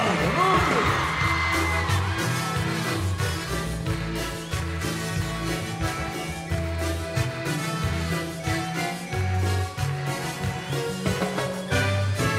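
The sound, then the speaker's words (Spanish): A girl's shrill scream or whoop rises from the crowd at a live concert, mostly near the start, over loud, bass-heavy band music that plays without pause. “Y el grito de la chica.”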